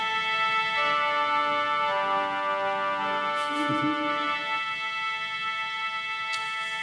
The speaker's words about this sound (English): So the backbone of any orchestra are the violins or the strings. We have those here. They sound something like this.